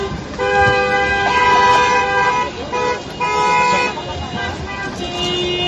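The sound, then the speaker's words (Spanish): Car horns honk from a protest caravan of vehicles driven by hospitality workers and shopkeepers in Extremadura. Several horns sound together in loud, sustained, overlapping blasts with a brief dip partway through, over a bed of road noise. “Hoy por la mañana se celebran caravanas de vehículos en muchas localidades de Extremadura, entre ellas las capitales de provincia, en Badajoz y Cáceres.”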